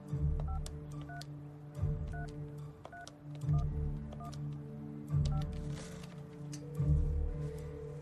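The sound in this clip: Telephone keypad tones as someone dials a random number: a quick string of short electronic beeps at different pitches, over a quiet, pulsing low background.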